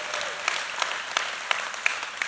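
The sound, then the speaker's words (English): Church audience applauding during a service, a dense wash of clapping hands with sharper accents landing on a steady, regular beat throughout. “Somebody clap right there. Let's just get this thing going.”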